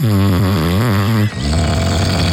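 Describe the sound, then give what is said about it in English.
A voice imitates a partner's snoring: a loud, buzzing voiced snore with wavering pitch for just over a second, then a rougher, breathy rasp to the end. “That'd be great to hear an imitation of your partner's snoring, please. Does it sound like this? Or does it sound like this?”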